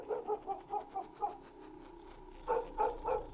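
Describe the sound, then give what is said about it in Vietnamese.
Black dog chained in a kitchen barking: a quick run of short, faint barks, a brief pause, then a few more barks. “Thế nhưng con chó mực xích ở dưới bếp lại một lần nữa sủa lên nhấm nha nhấm nhằng.”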